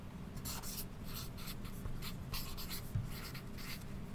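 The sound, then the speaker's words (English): Scratchy pen or pencil strokes on paper as quiz answers are written down, with many quick bursts of scribbling in an uneven rhythm, fairly soft and with no talking. “Write your answers down now.”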